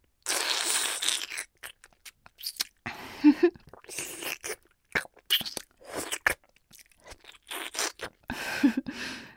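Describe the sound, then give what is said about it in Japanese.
Crunching and biting of someone eating ice cream, with many irregular crisp bursts of mouth noise and brief pauses between them. “アイス食べてるだけだよ。”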